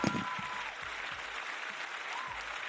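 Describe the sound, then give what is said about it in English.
A round of applause, steady many-handed clapping that holds an even, fairly soft level from start to finish. “Yo, round of a fucking applause.”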